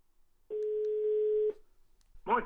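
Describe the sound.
A telephone call is placed to a guest: one steady, mid-pitched telephone tone sounds for about a second, followed by a brief pause and then a short burst of voice.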